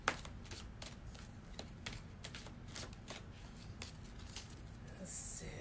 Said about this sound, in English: So get us a card to get us started.